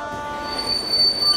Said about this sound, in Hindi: कुछ देर बाद ट्रेन एक छोटे से स्टेशन पर रुकी।